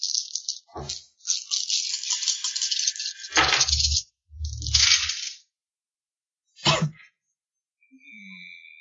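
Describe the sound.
Dice rolled during a tabletop game rattle and clatter in a series of bursts of uneven length, separated by short gaps, with a fainter rattle at the end and no talking.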